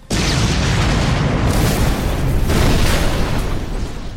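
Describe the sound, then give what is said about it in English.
A big bomb explodes in a video game with a loud, sustained booming roar. The dense, rumbling blast holds steady for about four seconds with no clear break. “That sounded like it blew up more than just the door”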